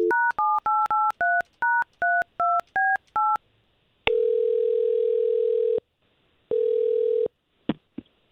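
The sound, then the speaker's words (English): Telephone dialing a number: a rapid run of short, even dual-tone keypad beeps, then two long steady ringing tones separated by a pause, ending with a brief click. “I'm just going to get Jack on the line and just try to get him talking”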